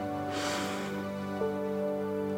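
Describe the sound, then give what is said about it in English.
A single deep inhale during a guided relaxation body check, soft and airy, swelling and fading within about half a second over a steady low hum. “Take a deep breath in”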